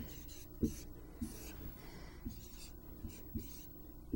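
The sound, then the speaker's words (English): Faint writing while a matrix row and column of numbers are jotted out, heard as a few soft scratches and light taps spaced through a quiet stretch, with no talk. “So you can even write that out.”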